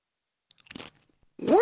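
Crunchy snack mix of corn nuts and bagel chips is chewed, giving a few quick, dry crunches close together, followed by a brief pause and then a louder sound at the end.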